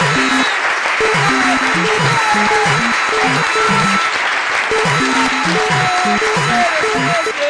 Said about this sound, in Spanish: ¡Es un nuevo oyente! ¡Aplausos! ¡Aplausos!